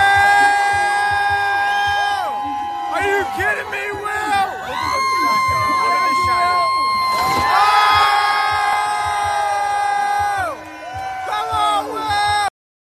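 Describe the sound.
A crowd cheers, whoops and shouts loudly and almost without pause as a person crashes through a long one-piece table at a Bills vs Patriots drinking party. A sharp crash cuts through the din about midway.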